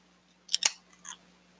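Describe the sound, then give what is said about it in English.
The metal cap pops off a Hemptails beer bottle: two sharp clicks in quick succession, then a softer tick, alone against a faint hum. “All right, here we go with the Hemptails. We gonna get a little taste here, see how it does. Pop this top.”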